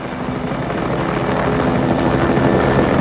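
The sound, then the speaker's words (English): Medical helicopter hovering overhead, a loud, steady rotor and engine drone with a dense, throbbing texture that swells slightly and holds constant, with no voices. “The scene dissolves to a helicopter hovering overhead, its rotor blades a spinning blur against a dusky violet sky.”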